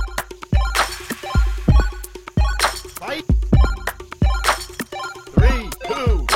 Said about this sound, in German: Oh, wir haben unseren Trailer, unser Jingle. Let's go.